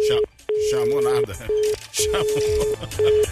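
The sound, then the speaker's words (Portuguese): Ringback tone of an outgoing phone call: a steady mid-pitched tone comes in several repeated pulses of uneven length, with a voice talking over it throughout. “Tô te ligando, hein? Tô te ligando.”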